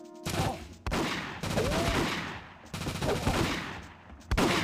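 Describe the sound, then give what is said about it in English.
Automatic gunfire from a James Bond video game: sustained, loud bursts of rapid shots fill long stretches, broken by a few short gaps, with no talking. “Okay, automatic gun now. This is what we call bullet hose.”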